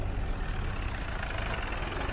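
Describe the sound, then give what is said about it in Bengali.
Engines of a jeep and a lorry idle after the vehicles stop in a village, a steady, low, unbroken rumble with a broad hum that lasts throughout and no voices. “Mile দশ বারো গিয়ে সাম পাহাড়তলি নামের এক গ্রামে zip আর lorry থামল।”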